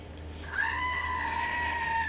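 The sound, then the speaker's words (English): A screaming goat novelty toy, a cheap button gadget, lets out one sustained, bleating scream with bright, steady harmonics. It begins after a short quiet pause and holds at the same level to the end. “I press my screaming goat because I'm just so irritated. And I was like, I need that in my life. So I bought it off Amazon.”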